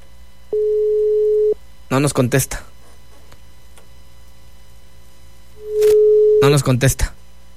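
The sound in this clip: Ringback tone of a phone call that goes unanswered. Two steady beeps, each about a second long, come roughly five seconds apart, and each is followed by short bursts of talk.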